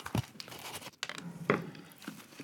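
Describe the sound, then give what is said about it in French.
A knife cuts a slice of galette des rois, producing faint, crackly crunches of flaky pastry. A few short, crisp bursts stand out against quiet, soft rustling. “Allez-y, dégustez. Je m'en coupe une petite part à moi aussi.”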